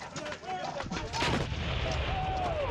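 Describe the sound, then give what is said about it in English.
Artillery fire from surrounding units directed onto German forces at Hill 314, a dense, loud, continuous barrage of booms and rumbling blasts with thin whistling tones streaking through. “Weiss is the key to the direction of artillery fire from surrounding units onto the German forces below.”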